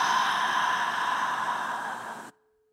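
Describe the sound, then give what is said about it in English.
A long, audible exhale through an open mouth during a guided morning breathing meditation, a steady breathy rush that eases slightly before cutting off cleanly into silence. “Again, inhaling through your nose. Open mouth, exhale.”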